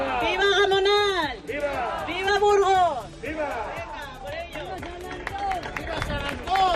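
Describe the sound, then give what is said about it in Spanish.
A festive crowd shouts repeated vivas at the start of the titos festival in Gamonal, Burgos, loud rhythmic chants rising and falling amid hubbub and scattered clapping. “Ese era el sonido de hace escasos minutos con la alcaldesa de Burgos, Cristina Ayala, y el comienzo de la fiesta, dando inicio al reparto de los titos.”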